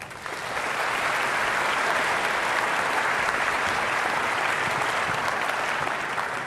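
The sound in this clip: Audience applause welcoming a guest speaker at a morning worship gathering, a dense, steady wash of clapping that swells quickly and holds at an even, loud level for several seconds.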